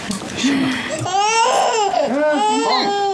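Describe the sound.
A child cries in loud, wavering wails, the pitch sliding up and down through continuous sobbing cries with no pause.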